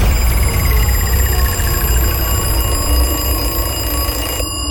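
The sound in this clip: Ringing bell jingle used as a ticket-giveaway alarm: a loud, continuous, rapid ringing, like a telephone or alarm-clock bell, holding steady throughout before stopping abruptly near the end.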